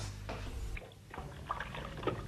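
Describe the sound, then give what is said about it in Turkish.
Water running from a kitchen tap while hands are washed: a faint, steady hiss of flowing water that shifts in texture partway through as the hands move under the stream. “Peki peki, önce ellerimi yıkayayım.”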